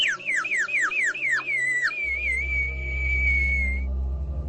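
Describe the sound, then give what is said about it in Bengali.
Someone whistling on empty open ground: a quick run of falling chirps, then a long, steady high note, with a low rumble entering beneath partway through. “হঠাৎ সেই ফাঁকা ডাঙ্গায় কে যেন উঠল শিস দিয়ে।”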